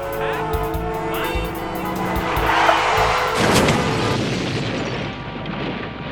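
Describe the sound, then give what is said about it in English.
A car crash behind a radio mobile station: tonal engine and tire noise builds, then a heavy crunching impact bursts out and its rumbling debris noise slowly fades. “Wait a minute, this just in. A huge crash has just occurred directly behind the K-Day's mobile station.”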